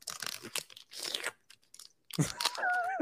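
Crinkling and tearing as a pack of hockey trading cards is opened right into the microphone. Loud bursts of wrapper rustle break for a short gap midway, and a brief vocal sound comes at the end.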